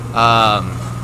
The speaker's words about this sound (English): Oh, man, this tractor. We were not expecting this whatsoever. So I apologize for the noise.